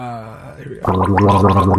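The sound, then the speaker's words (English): A person gargles, a loud bubbling, throaty rattle that starts abruptly after a short voiced sound and carries on to the end. “Is that him gargling? It sounds like him. It sounds like him. Do it again. Let's hear it.”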